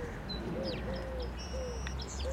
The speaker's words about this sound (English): So I think I might have just heard a song sparrow there.